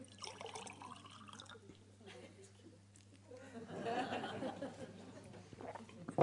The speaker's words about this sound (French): Comment enlever l'air de ce verre? Eh bien tout simplement en le remplissant d'eau.